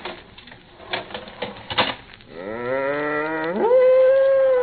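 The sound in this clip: A cow in a barn gives a long, loud moo after a run of clattering taps; the moo holds steady, then climbs to a higher sustained pitch at the end.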